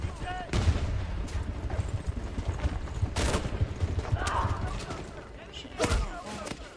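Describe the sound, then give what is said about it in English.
Video game gunfire cracks out in a few sharp bursts over a continuous rumbling battle background, loud and irregularly spaced. “Uh-oh. You're getting shot at.”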